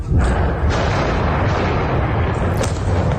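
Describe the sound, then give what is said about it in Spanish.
Israeli bombardment in the Bekaa Valley of eastern Lebanon: a loud, sustained rumbling roar of blasts without a break, with a sharper burst standing out near the end. “Sonido de esos bombardeos.”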